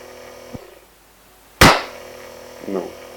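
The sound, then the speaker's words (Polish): A single sharp hand clap cuts through a quiet, humming background, loud and abrupt, with a softer brief noise following a second later. “Spróbuję teraz klasnąć.”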